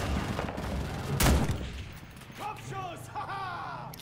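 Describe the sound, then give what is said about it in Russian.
Gunfire in the free online shooter game Point Blank, a dense crackling spray of shots with one louder blast near the middle, after which voices talk briefly. “Играли в старый добрый Point Blank, бесплатный аналог CSGO от Fugame.”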